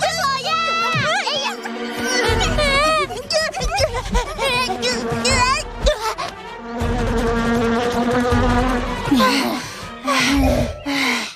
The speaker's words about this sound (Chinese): 是嗡嗡声。 我听到了， 我也听到了。